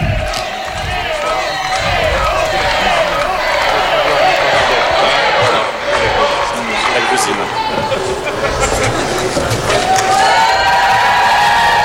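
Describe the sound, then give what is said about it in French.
A large crowd cheers and acclaims during Pope Leo XIV's visit to France, with continuous loud roaring, shouts and whoops and a man talking over the noise. “Voilà qui est acclamé.”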